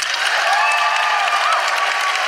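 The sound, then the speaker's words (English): Audience applause at a live feminist comedy show honoring the guests: dense, sustained clapping from a large crowd, holding at an even, full level throughout. “And can I please have a huge round of applause for Chanel Miller,”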